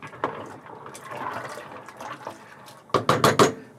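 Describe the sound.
A pot full of macaroni is handled in a home kitchen, soft scraping and rustling giving way near the end to a quick burst of bright metallic clatters.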